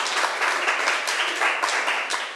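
Classmates in a school classroom applauding a fellow student: many hands clapping in a dense, steady patter that fills the whole stretch at a fairly even loudness.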